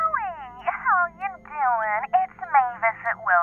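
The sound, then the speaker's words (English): A telephone rings with a chirpy, warbling electronic tone made of quick rising and falling sweeps, sounded as a string of short, repeated bursts. “The phone had been quiet for a few days longer than usual. It caught me by surprise when it finally made some noise.”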